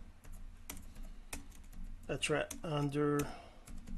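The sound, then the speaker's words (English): Typing on a computer keyboard, a steady run of light, quick key clicks that continues underneath a voice speaking partway through. “I'm sorry, I'm looking at the keyboard because I have trouble typing without looking at it.”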